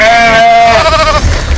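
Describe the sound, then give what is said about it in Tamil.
A lamb bleats as an eagle carries it off. It gives one long, loud, quavering cry with a nasal, wavering tone that breaks into rougher noise at the end. “ஆட்டுக்குட்டி ஒன்றை கழுகு தூக்கி செல்லும் காட்சியை படம் பிடித்துள்ளார்.”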